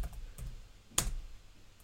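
A few scattered keystrokes on a computer keyboard, with one sharper, louder click near the middle and softer taps around it over quiet background, with no talk.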